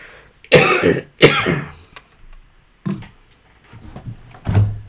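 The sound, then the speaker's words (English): Someone coughs in harsh, hacking bursts while choking: two loud coughs close together, then a few softer, rougher coughs after short pauses. “Excuse me, I'm choking here.”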